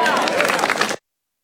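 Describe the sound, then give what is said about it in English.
Audience applause from a crowd at a political speech, a dense burst of clapping and crowd noise that cuts off abruptly after about a second. “Ooh, thunderous applause there.”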